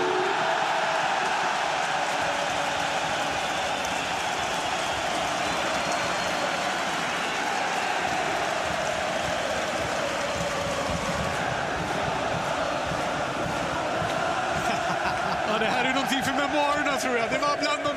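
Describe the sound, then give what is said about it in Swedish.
A football crowd at Råsunda stadium roars during a twin derby after a silent protest. The roar is a dense, loud, unbroken wall of noise that lasts the whole time, and a voice talks over it. “Känslorna jag varit med om på en idrottsarena. Från absolut tyst till maximal ljudvolym. Här är den här inramningen, den här stämningen man vill ha verkligen.”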